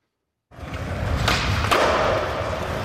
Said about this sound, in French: C'était un bruit de skateboard.